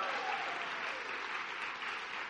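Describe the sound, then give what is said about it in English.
Audience applause at a church service celebrating people baptised in the waters the day before: a steady, dense wash of clapping that holds evenly throughout, fairly faint, with no voices over it. “A round of applause for those who entered the waters yesterday.”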